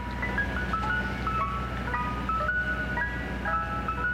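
An ice cream truck jingle on city streets in New York repeats a bright, high, plinking melody of short notes over a steady low engine hum, with no talking.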